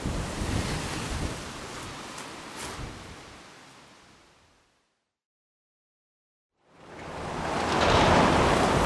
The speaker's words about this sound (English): Man, this wind is really not dying down.